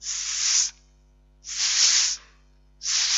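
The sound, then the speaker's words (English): A voice imitates a frightened or angry snake with three long, breathy hisses, each about half a second or more, separated by short silences. “A snake, when it gets a sort of a little bit afraid or made a bit angry, it says,”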